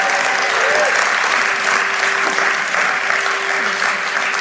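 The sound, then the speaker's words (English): Audience applause greets a woman called onto the stage: dense, steady clapping that stays loud and even for the whole stretch without a break. “Everybody give her another round of applause.”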